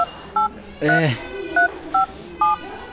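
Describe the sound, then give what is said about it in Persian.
Telephone keypad tones as a phone number is dialled before a call, several short, clear electronic beeps at uneven intervals, with a brief voice heard between the early tones. “خی باز که من یک دفعه به فاروق زنگ بزنم با بفهم که گپ پسی قرار است.”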